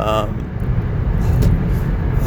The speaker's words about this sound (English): I'm driving home right now, and there's a lot of cars on the road for a Saturday morning compared to what I normally see.